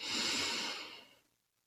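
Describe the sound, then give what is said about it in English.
A single deep breath taken at the start of a guided prayer and meditation. It is long and airy, loud at first, then gradually fades into silence. “I want you to start by taking a deep breath in”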